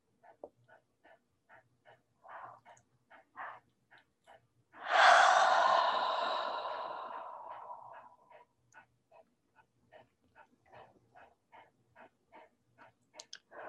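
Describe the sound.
A single long, deep exhale during a guided meditation: a breathy rush that starts loud and fades over about three seconds, with faint, evenly spaced short pulses before and after it.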